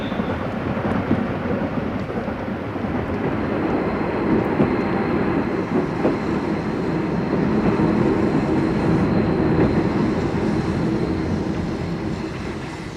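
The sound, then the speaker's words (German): An express train bound for Paris pulls into a station with a steady, dense rumbling roar that holds throughout and eases slightly at the end. “Es hat Einfahrt der fahrplanmäßige FD-Zug nach Paris. Bitte zurücktreten. Zurücktreten, bitte.”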